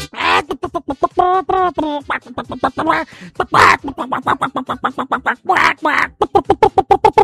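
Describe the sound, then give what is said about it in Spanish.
A hen clucking in a henhouse, a loud, rapid run of nasal clucks and squawks repeating in uneven bursts. “A ver, pues pásame una gallina que me pida el tema. Te voy a pasar a la Gilomena, una novia que tengo aquí en el gallinero.”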